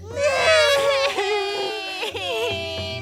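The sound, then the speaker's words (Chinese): Frightened crying of little T. rexes left home alone in a children's story, performed by a voice imitating them: high, wavering wails and sobs that rise and fall continuously and loudly. “害怕的哭了起来。乐乐担心的下床，跑到隔壁，想要照顾三个小暴龙。”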